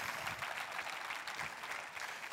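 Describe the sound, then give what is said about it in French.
Applause from a church audience during a sermon: dense, steady clapping that holds at a fairly low level for the whole stretch, with no voices standing out. “Et là, vous devriez applaudir les œuvres que Dieu va faire.”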